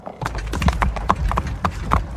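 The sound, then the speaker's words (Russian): Horse hooves clip-clop steadily as a carriage leaves the cobblestones for quieter outskirt streets and the horses slow their pace. The hoofbeats form an even run of many sharp knocks over a low rumble. “Треск колес сменился тихим стуком. С булыжной мостовой съехали на окраинные улицы. Лошади умерили бег.”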